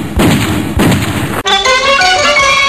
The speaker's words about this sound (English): Who did Roy shoot? How on earth did he get a gun?